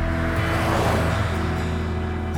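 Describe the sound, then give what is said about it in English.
A truck speeds away down a gravel road with a loud, steady, low motor drone and a dense rumble that holds evenly throughout. “Back in his truck, he speeds out the drive, down a gravel road just past where you are standing.”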